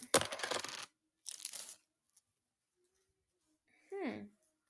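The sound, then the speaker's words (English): Paper crackles and tears as an envelope inside a package is opened, in two dry, noisy bursts followed by quiet and a brief softer rustle. “Like an envelope. That's inside of the package. Opening up that envelope.”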